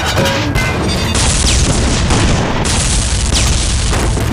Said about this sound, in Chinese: 开火！一发不留。 预备！放！